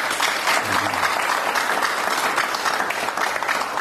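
Studio audience applause for a TV show guest: a steady wash of many hands clapping, even in loudness for about four seconds.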